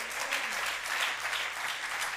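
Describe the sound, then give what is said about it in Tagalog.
Steady applause from a church audience clapping for the Lord, a continuous, even wash of many hands throughout. “Pwede po ba natin palakpakan ng Panginoon?”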